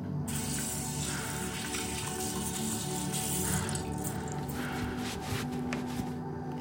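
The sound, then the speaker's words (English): Water runs steadily from a tap while someone washes their hands, a continuous hissing splash with occasional faint clinks and no voices. “Well, wash your hands and get in there.”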